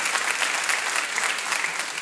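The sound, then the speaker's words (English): Audience applause at a live music radio show: an even, dense wash of many hands clapping that stays at a steady loudness from start to finish. “Let's give a big round of applause.”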